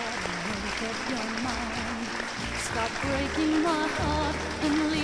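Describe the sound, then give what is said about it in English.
Studio audience applause, a loud, steady wash of clapping across the whole stretch with voices or tones heard over it. “give yourselves a big hand and a big hand also for Joseph Church and Bruce Vilanch”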